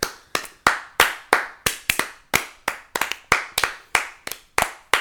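Audience clapping for the MC at an open mic poetry night, many sharp, separate handclaps in a loose, fairly steady rhythm, each ringing briefly before the next, with no voices over them.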